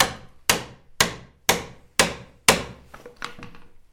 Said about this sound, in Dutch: dan die pen en gat verbinden? Dit deze heb ik gerestaureerd. Dit is nog 400 jaar oud. Eh. Oké. Het enige oude kozijn wat hier eh, bewaard is gebleven. En dan tik je het erin inderdaad.